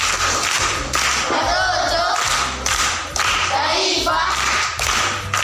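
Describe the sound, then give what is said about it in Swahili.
Applause from an audience for a schoolchild who has just answered a riddle correctly: steady, dense clapping that fills the whole stretch, with only brief dips in loudness. “Makofi kwa mjomba.”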